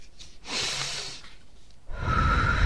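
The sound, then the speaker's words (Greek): In a guided breathing exercise, a person takes a breath in through the nose and lets it out through the mouth. Both breaths are soft, clearly heard and alone. “εισπνοή από τη μύτη, εκπνοή από το στόμα, μία, δεύτερη εισπνοή, εκπνοή από το στόμα και άλλη μία”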